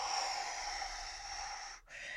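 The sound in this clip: Slow, deliberate breathing for a relaxation exercise: a long, steady, airy breath fills most of the moment, broken by a brief pause near the end before breath noise resumes.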